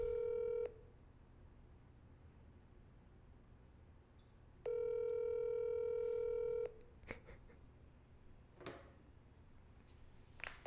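Ringback tone of an outgoing telephone call: two long, steady, buzzing rings separated by a pause of several seconds, the first cut short. A few faint clicks follow over low background hiss.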